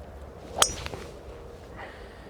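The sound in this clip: Golf ball struck with a historical club on a course, a single sharp, bright click followed by a few faint, softer sounds over quiet outdoor background.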